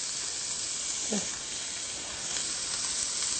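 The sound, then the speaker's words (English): Onions and garlic sizzle in a cooking pan, giving a continuous, fairly even hiss of frying that holds steady from start to finish at moderate loudness. “we're going to add our onions. We're going to take our garlic, and we'll put that in.”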